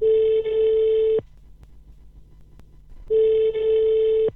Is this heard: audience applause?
no